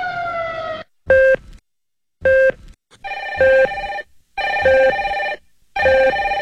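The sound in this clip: A telephone rings with an electronic ringtone: repeated bright tonal bursts of varying length that step between a few pitches in a melodic pattern. The bursts are loud and stand alone with short silent gaps between them.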